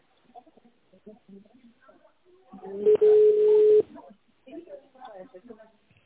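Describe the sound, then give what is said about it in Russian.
A single telephone keypad tone sounds while dialing an extension on an office phone line. It is steady and about a second long, set between stretches of voice before and after. “наберите его в тоновом режиме или дождитесь ответа оператора.”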